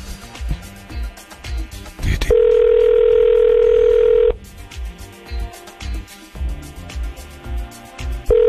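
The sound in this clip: A telephone dial tone sounds while a listener is being called: a steady, flat, loud tone of about two seconds between stretches of talk, with the same tone starting again at the very end.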